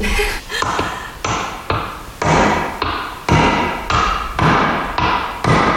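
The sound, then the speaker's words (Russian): An Italian martellina mosaic hammer breaks a piece of soft onyx with a long series of sharp, ringing blows. The strikes fall in a steady rhythm about every half second, each a bright crack that decays quickly. “Мне нужно его сначала специальным молоточком. Это называется мортеллино. Это итальянский у меня конкретно. Оникс достаточно мягкий материал.”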